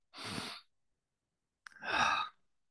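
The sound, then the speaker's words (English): Deep breathing at the start of a wellness talk: two long, breathy rushes of air separated by a short silence, the second fuller and ending in a sighing release. Both are heard alone, with no talk over them. “Why don't you take a nice deep breath with me?”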